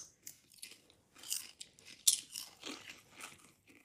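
Someone eating crunchy paprika-onion kettle chips, with many loud, crisp crunches and bites in an uneven chewing rhythm and no talking.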